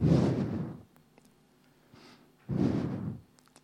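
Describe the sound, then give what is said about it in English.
Two forceful breaths blown out by a person, each a loud, rushing burst of air lasting under a second. A quiet pause with a few faint clicks separates them. “Let me try to breathe.”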